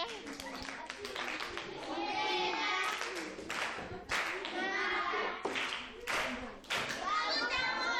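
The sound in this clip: Grade six pupils at Karuta primary school applaud their classmates, clapping in sustained bursts of many quick hand strikes, with children's voices mixed into the noise.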